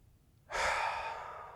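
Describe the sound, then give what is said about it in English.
A person exhales during a guided breathing prayer. After a quiet moment, one soft, breathy rush of air starts suddenly and then slowly fades away. “So right now, exhale with me.”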